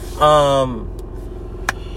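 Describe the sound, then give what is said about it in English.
A car drives along the road, heard from inside as a steady low engine and road rumble that runs the whole time, with a brief voiced sound near the start. “Also, too, I'm driving right now. I'm on my way to work.”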